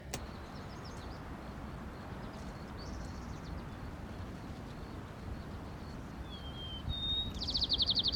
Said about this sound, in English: White crown sparrow E.